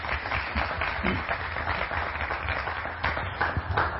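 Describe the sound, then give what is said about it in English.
Applause from an audience welcoming a woman who comes up to speak at a morning talk, a dense, steady patter of clapping that lasts the whole time. “So would you welcome her as she comes? She's going to share for a couple of minutes. Yeah, give her a hand.”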